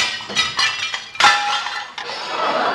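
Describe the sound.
Dishes are smashed by a waiter clearing a table, producing a rapid series of several sharp crashes and clinks of breaking crockery. The loudest shatter comes near the middle, followed by one more crash and a lingering rattle.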